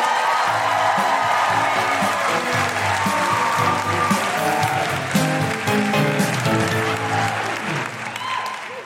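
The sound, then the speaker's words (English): Loud audience applause and cheering welcome a comedian at a live comedy show in Adelaide, with dense, sustained clapping and scattered whoops that ease slightly toward the end. “Put your hands together and make incredible guilty feminist Adelaide welcoming noises for the wonderful Geraldine”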